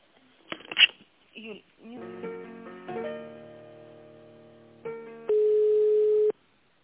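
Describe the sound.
Telephone tones while a call is transferred: a few short sounds, then a steady buzzing harmonic tone, followed by one loud, flat, sustained beep that cuts off abruptly near the end.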